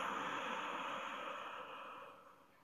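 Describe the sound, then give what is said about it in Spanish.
A slow, steady breath drawn in during a guided breathing exercise makes a soft, airy hiss that holds level for most of its length and then tapers off toward the end, with no talk. “Exhala. Inhala. Exhala.”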